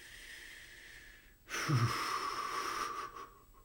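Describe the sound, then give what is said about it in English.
A single slow, deep breath, a soft airy wheeze lasting nearly two seconds, taken while sitting with a feeling of fear; no talk over it. “I'm just gonna breathe with it here.”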